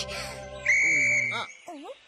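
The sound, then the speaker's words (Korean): A whistle blows one long, steady shrill blast, after a short burst of high chirpy tones and followed by brief rising and falling calls; voices sound around it. “갑자기 호루라기는 왜 부른 거야?”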